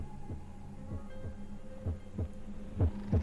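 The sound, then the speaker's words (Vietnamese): A low, pounding heartbeat thumps in a steady run of muffled beats, faint at first and growing noticeably louder and heavier toward the end, alone over a soft hum. “Cô cảm giác như trái tim của mình đang đập như muốn văng ra khỏi lồng ngực.”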